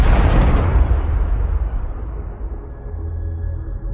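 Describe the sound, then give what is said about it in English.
A shotgun goes off during a struggle over the gun: one heavy, loud blast that dies away into a low, fading rumble. “they're fighting over the shotgun. And as he grabs the glasses, the shotgun goes off, and basically Ryan Reynolds kills a guy”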